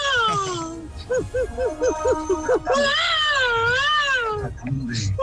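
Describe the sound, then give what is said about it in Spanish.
A human voice imitates a crying baby, starting with a wail, then a run of quick sobbing pulses, then a long, wavering wail, loud and alone. “mi talento oculto es llorar un niño”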